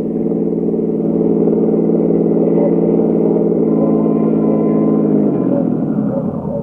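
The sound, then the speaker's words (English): A car drives to a launderette on an avenue, its engine giving a steady, loud mid-pitched hum that holds evenly and then drops in pitch near the end. “In company with Lieutenant King, I drove over to 1132nd Avenue, Jerry's Laundrette, from where the search would commence.”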